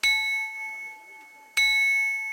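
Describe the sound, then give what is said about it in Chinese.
A handmade porcelain bowl is struck twice, each strike a bright ding that rings on in steady, bell-like tones and slowly fades, the second strike as loud as the first. “我们刚刚敲进那碗的有钟声，这个碗还会唱歌的”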